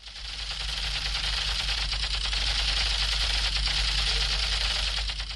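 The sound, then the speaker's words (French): Rapid, continuous rattling of a child's toy Kalashnikov gun being fired in Yaoundé: a dense buzzing clatter with a low hum beneath, sustained at an even level throughout. “As you can see, I'm using my Kalashnikov gun to shoot and kill enemies.”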